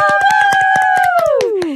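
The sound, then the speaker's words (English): Two people cheer with a sustained, sliding "woo" whose pitch falls toward the end, over a series of sharp rhythmic clicks. “Just two people cheering, by the way.”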